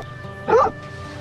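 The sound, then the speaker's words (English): A dog barks once at a wagon: a single short, sharp bark that stands out over a low, steady background hum. “Sam is shooing away a dog barking at Sarah's wagon.”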